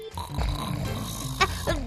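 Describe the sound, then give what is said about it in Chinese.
A person snoring while asleep in a detective agency's office, with rough, throaty, grunting breaths over a rumbling low drone. “这是打呼的声音吗？是谁在事务所里睡觉啊？”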